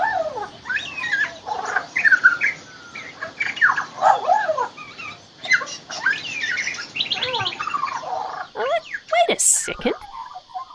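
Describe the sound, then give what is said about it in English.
An Australian magpie in a tree calls in a long, varied stream of warbling, chirping and whistled notes, mimicking other birds, with quick pitch slides and a sharp high note near the end. “That's not a magpie sound, but it's still coming from the magpie in my tree.”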